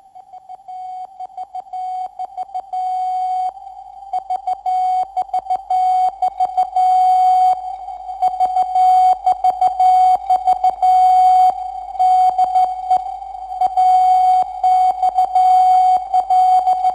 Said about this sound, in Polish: to AXL w alfabecie Morsa. Sygnał wywoławczy Transatlantyckiej Centrali Radiotelegraficznej w Babicach koło Warszawy.